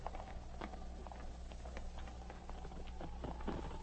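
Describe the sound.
Horses' hooves clop along a trail as two mounted riders head up it: faint, irregular hoof strikes over a low background hum.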